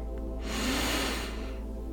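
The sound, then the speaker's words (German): One deep, hissing breath taken during a guided relaxation exercise, rising and fading over about a second, heard over a steady low droning background. “Und dann atme nun noch einmal tief ein”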